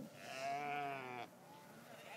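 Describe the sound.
A sheep bleats on a pasture among its flock: one drawn-out, wavering bleat of about a second, fairly faint, then quieter background sound.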